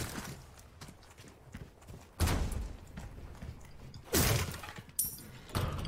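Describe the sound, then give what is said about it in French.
A cardboard box is smashed in the video game Resident Evil 4 Remake, giving several sharp crunching bursts with quieter rustling and clatter between them. “un carton cassé.”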